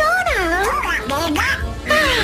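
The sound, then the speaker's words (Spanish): A voice imitates the famous cartoon duck, producing nasal, quacking, garbled speech with wavering pitch that runs continuously without pause. “También tenemos a un pato, pero no a un pato cualquiera. El pato más famoso de los dibujos animados.”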